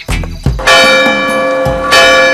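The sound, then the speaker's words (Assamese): A clock strikes two o'clock with two loud bell-like strikes, each ringing on with a sustained tone. Softer knocks come before them. “সেয়া 2টা বাজিল”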